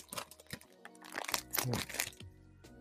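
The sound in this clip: Crinkling and crackling of a chocolate bar wrapper being torn open, heard as several quiet, irregular bursts of crisp rustling separated by short gaps.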